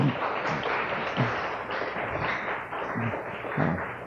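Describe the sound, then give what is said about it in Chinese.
Applause from an audience thanking teachers at a Chinese-language department school event, a dense, continuous patter of many hands at a moderate, steady level, with a few heavier thumps. “我想有很多老师都在场，大家鼓掌谢谢他们一下好吧”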